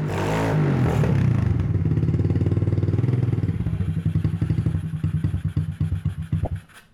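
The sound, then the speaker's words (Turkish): A motorcycle engine with a carburettor problem and clogged jets runs at a loud, rapid, low idle. The firing turns uneven and slows toward the end, with its pulses spreading apart as it sputters. “Evet, çalışıyor. Motorun evet, sesi takır tukur güzel.”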